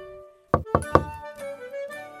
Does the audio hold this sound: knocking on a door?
yes